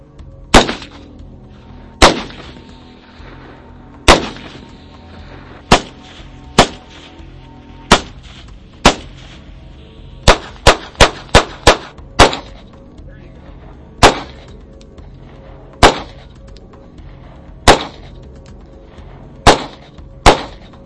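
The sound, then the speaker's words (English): Gunfire from various guns at a shooting range: many sharp, loud reports at irregular intervals, with a quick burst of closely spaced shots partway through, each crack decaying fast into a quiet background. “we just did a lot of shooting. What was your favorite part of all the different guns we shot on the upcoming Brothers in Arms?”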